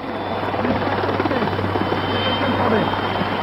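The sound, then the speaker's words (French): Puma military helicopters approach in the distance over Corsica, producing a steady rhythmic rotor thudding layered with a continuous droning engine hum that holds at an even level throughout. “Il ne le sait pas encore, mais au loin, des hélicoptères Puma approche.”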